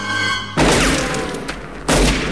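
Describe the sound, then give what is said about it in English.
Gunshots in a night standoff, a bullet striking a wooden fence: two loud, booming reports about a second apart, each with a long ringing decay. “Harry fires, hitting the wooden fence in front of Scorpio, who returns fire and scuttles away.”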